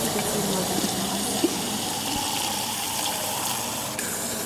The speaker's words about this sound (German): Ich schenke jetzt mal einen Schluck mit Kohlensäure ein.